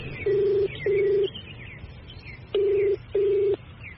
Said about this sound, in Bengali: Ring হয়ে গেল, কেউ ধরল না।